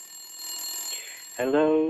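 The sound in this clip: A telephone rings from a public call box, a shrill sustained electronic tone that gives way near the end to a louder, richer ringing.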